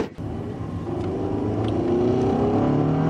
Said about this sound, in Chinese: 哎，虽然我们现在在赶时间，你开车还是给我注意一点啊，不要开太快，好好遵守交通规则。